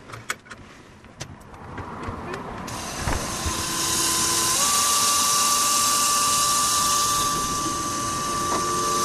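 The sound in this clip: An electric car with a basic turnkey start drives off, giving out a musical pedestrian warning tone. A few sharp clicks and rattles come first, then a steady hiss rises and sustained tonal notes hold alongside it, with no talk.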